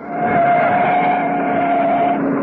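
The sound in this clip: A powerful car's engine accelerates during a pursuit on the open road, a loud, steady roar with a sustained whining tone running through it, with no voices.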